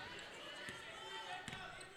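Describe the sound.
A basketball dribbling on the court during a girls' high school game. Two dull thuds stand out faintly under a commentator's talk and steady background noise.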